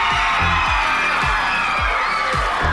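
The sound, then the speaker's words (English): Crowd roaring and cheering at the 2009 Ugly Dog contest in Sonoma County, California, as the winner is named, a loud, continuous wall of cheers and whoops that stays strong throughout. “First-time contender Pabst looks startled by the roars from the crowd.”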